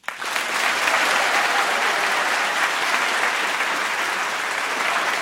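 Studio audience applauding the contestants of a radio quiz game, the clapping starting abruptly and holding as a loud, dense, unbroken roar of many hands.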